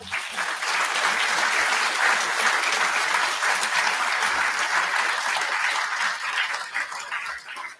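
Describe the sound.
Loud, steady audience applause welcoming a speaker to the stage at an event, a dense wash of clapping that holds throughout and tapers slightly at the very end.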